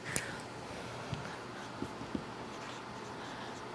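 Faint writing on a board: a few brief, soft marker or chalk strokes and taps spread over a steady low background hiss.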